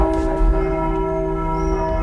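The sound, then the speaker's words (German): Church bells ring in Frankfurt (Oder), newly cast twelve years ago, making a sustained wash of overlapping, steady metallic tones at an even loudness throughout, with no voices. “Die Glocken der Marienkirche. Vor 12 Jahren sind sie extra neu gegossen worden.”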